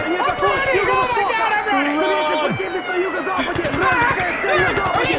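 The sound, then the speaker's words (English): Rapid automatic gunfire from a video game comes in quick, regular bursts, once near the start and again later, while people talk excitedly over it. “They're shooting at you. Run.”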